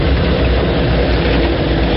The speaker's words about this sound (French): le véhicule tout-terrain redémarre.